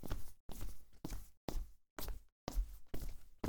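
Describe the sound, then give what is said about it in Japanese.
Footsteps walking around inside a house: a steady, evenly spaced run of scuffing steps, fairly quiet and heard alone with no voices. “つまんない長話聞いてたら肩凝っちゃったな。少しお家の中散歩しようっと。”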